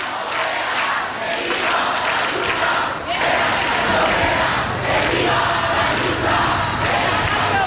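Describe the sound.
Protest crowd at Puerta del Sol in Madrid chanting "no pasarán", a loud, massed roar of many voices in a sustained, rhythmic chant with a brief dip midway before it swells again.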